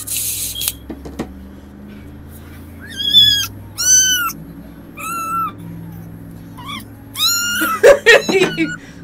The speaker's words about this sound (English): Aw, you got pretty cats. It's a kitten